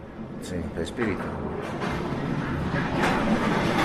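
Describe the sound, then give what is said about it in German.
Heavy mine carts loaded with rubble race fast out of a mine on rails, giving a steady, broad rolling rumble that continues throughout. “Durch eine Phalanx von Wellblechhütten und losen Bretterverschlägen führen in das Schwarze Loch Schienen. Auf ihnen wird der Schutt von zwei Mineros in schweren Karren herausgefahren. Alle 5 Minuten rast einer halsbrecherisch schnell aus der Mine heraus.”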